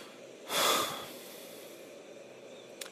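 A single short puff of breath is blown onto sunglasses to clear off beach sand: a soft, breathy burst of about half a second over a quiet, steady background.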